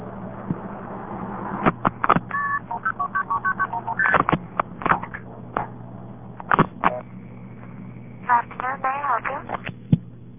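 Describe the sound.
A payphone sends multi-frequency tones while dialing the operator. Two bursts of quick, chirping beeps in varied pitches sit over a low background hum, separated by a few louder clicks.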